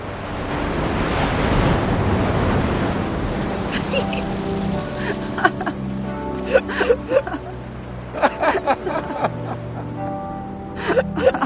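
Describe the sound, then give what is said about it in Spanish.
Sea waves wash ashore in a broad, rushing surge that swells and then recedes, leaving a softer wash scattered with brief, thin tonal sounds. “ambos sentados frente al mar. Una ola los baña.”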